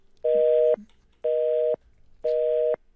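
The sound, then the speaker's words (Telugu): Busy tone after a dropped phone call: three identical short, steady beeps, evenly spaced with gaps about as long as the beeps, sounding alone without any voices. “Call cut అయిపోయినట్టుంది.”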